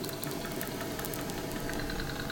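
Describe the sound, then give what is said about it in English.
A boat engine rumbles as a steady, unbroken drone of dense noise. It holds an even loudness throughout, with no clear change in pitch. “There is a boat also. Oh, see, the rumble is a boat, is it?”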